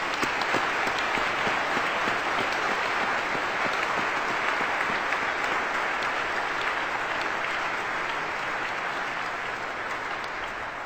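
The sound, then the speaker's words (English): Audience applause in a church, welcoming a new member of the pastoral staff: dense, steady clapping that carries on for about eleven seconds and eases slightly toward the end. “Let's give her a hand.”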